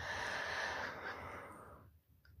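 A single deep breath drawn in through the nose or mouth during a calm breathing exercise, heard as a long, airy rush that holds for well over a second, then fades into near silence.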